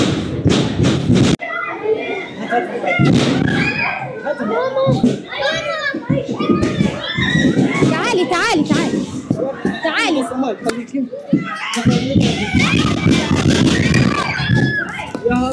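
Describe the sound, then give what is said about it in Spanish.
Panicked children and adults shout, cry and scream during an attack on the European Hospital in Gaza, with heavy thuds at the start and again later, and a dense, loud crowd commotion throughout. “Es el sonido del pánico que desató el ataque contra el Hospital Europeo el 13 de mayo.”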